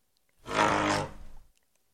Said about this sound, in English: we have a clip of the elephants, the actual elephant sounds, the natural sounds. So let's hear that.